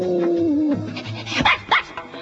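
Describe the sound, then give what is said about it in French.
A virtual cyberdog from a computer guard-dog screensaver program gives a drawn-out whining whimper, then a couple of sharp, loud barks in quick succession. “avec l'option garde, votre cyberchien se transforme en chien de garde. Entrez un mot de passe et il aboie dès qu'un intrus se permet de toucher à votre machine.”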